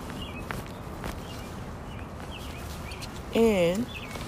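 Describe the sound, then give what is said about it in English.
Birds chirp outdoors in the cold. Faint, scattered chirps sound over a steady low background noise. “And you hear the birds chirping.”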